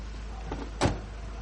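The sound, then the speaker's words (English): A car door shuts with one sharp, solid thud, preceded by a softer knock, over a low steady hum. “Nitram picks up the bulldog and puts it on the street. Nitram closes the car doors.”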